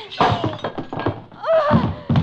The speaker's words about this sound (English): That was a nice shot with that bottle. But what a waste of good bourbon.